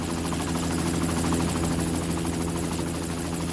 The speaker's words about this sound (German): Der Helikopter stieg auf, flog ein paar Meter zur Seite.